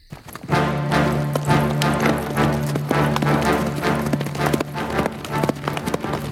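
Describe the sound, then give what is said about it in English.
Hoofbeats of a horse galloping through the night, a quick, steady run of clip-clop strikes that lasts the whole clip over a low, sustained droning tone. “Ludlov rode through the night. He had bound Samina's shoulder with a simple cloth and taken her outside on his horse.”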